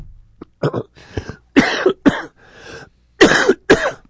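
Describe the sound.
Harsh coughing and throat clearing bring up phlegm in a rapid series of many short, rough bursts separated by brief pauses, loud and with no talk.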